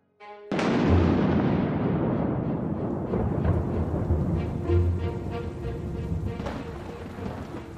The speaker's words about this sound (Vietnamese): Tiếng sấm đánh ì đùng, những tia chớp chói sáng rạch ngang dọc trên bầu trời đêm.